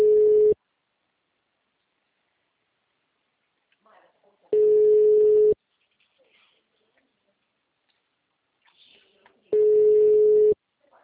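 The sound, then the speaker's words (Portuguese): Telephone busy tone after a dropped call. Three steady single-pitch beeps, each about a second long, are spaced several seconds apart, with only faint stray noise in between. “Parece que tinha caído a ligação.”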